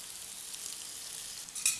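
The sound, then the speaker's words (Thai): Bitter melon stir-frying with garlic in hot oil gives a faint, steady sizzling hiss, with a brief scrape of stirring near the end. “ใส่ลงไปนะครับนะครับผัดนะครับให้มะระสุกก่อนนะครับ”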